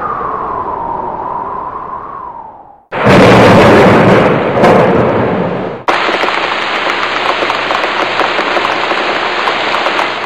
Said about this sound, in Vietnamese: tiếng sấm mùa xuân vang rền. Chỉ trong nháy mắt, mưa to đổ ập xuống.